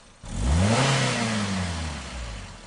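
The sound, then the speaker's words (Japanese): A car engine accelerating: it revs up sharply from a low rumble, rising in pitch, then holds a loud, steady drone that sags slightly toward the end. “よし、そのまま加速。”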